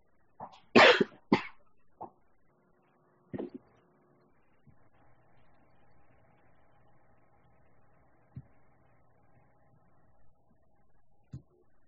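A person coughs from a dry throat: a few harsh coughs close together, then a couple of fainter ones. Quiet background follows, with faint low hum and small clicks.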